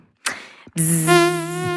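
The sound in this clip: A mosquito buzzing sound effect gives a sustained, rich, whining drone that holds steady, preceded by a short thump.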